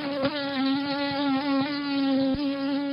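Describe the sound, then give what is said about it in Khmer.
Wingbeat buzz of a nuisance mosquito that carries no disease parasites: a continuous, thin, high whine, steady and alone, with a few faint ticks. “នោះគឺជាសំឡេងនៃសត្វមូសគួរឲ្យរំខានមួយក្បាលដែលមិនមានផ្ទុកប៉ារ៉ាស៊ីតដែលបង្កជំងឺដល់មនុស្ស”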